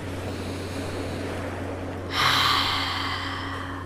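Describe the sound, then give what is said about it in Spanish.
A deep breath taken during a guided meditation, in through the nose and out through the mouth. A single breathy rush of air starts partway through, then fades slowly over a steady low hum. “Inhala y exhala profundamente. Respira y toma todo el aire por la nariz y bota todo el aire por la boca.”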